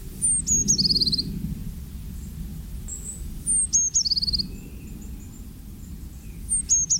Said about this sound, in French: La mésange charbonnière, que tout le monde connaît, qui vient souvent aux mangeoires quand on leur propose à manger en hiver notamment, qui est familière de l'homme.